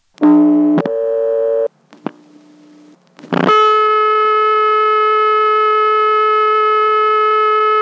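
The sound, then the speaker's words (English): A loud, steady high-pitched tone from a telephone trunk, reached by dialing 1-1 in a step-by-step exchange office, holds unbroken for several seconds after a couple of short tones and clicks. “on the second one, you cut into a trunk that gives you this high-pitched tone. I think I know what it is. Probably it's a dial speed test.”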